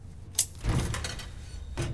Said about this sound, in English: a view over her shoulder shows the cadaver drawer open on its own.